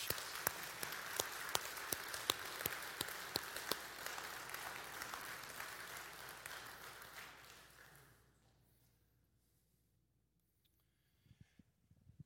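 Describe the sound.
Audience applause welcoming a speaker to the stage. Dense, steady clapping lasts about eight seconds, then fades into near silence, followed by a few faint knocks.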